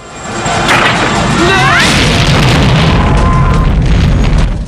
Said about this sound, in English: the chopper explodes